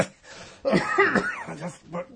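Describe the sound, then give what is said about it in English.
Coughing from a man: a few rough, harsh bursts mixed with throat sounds and some voiced noise, fairly quiet and alone. “I just got a cough on that.”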